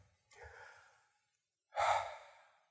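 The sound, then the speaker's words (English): Soft deep breathing: a slow, quiet inhale followed after a pause by a louder, sighing exhale, with no other sound around it. “Here, let's all do it together, you at home. Let's take a breath.”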